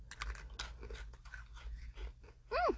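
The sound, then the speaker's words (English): Someone bites and chews a biscuit dipped in strawberry cream, with a run of many crisp, dry crunches in an uneven rhythm. “So you dip it in. I'm going to dip it in and get some strawberry cream on the end of my biscuit.”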